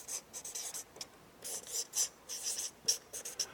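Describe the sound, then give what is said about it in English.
Writing on a board comes through as a series of short, scratchy strokes in irregular bursts, faint and with no talk. “I'm going to just write something on the board.”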